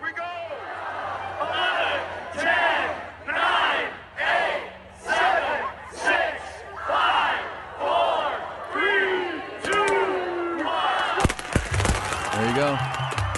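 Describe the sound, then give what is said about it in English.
A crowd cheers and chants at BYU's Big 12 countdown party in Provo. Loud, rhythmic surges of shouting rise and fall, and a burst of sharp bangs comes near the end. “They had a countdown party because officially on July the 1st, BYU became a member of the Big 12 Conference, leaving their independent status. Here was what it sounded like in Provo.”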